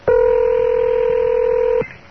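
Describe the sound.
A telephone number being dialed on a touch-tone keypad: one loud, steady two-note beep held for almost two seconds, then cut off cleanly.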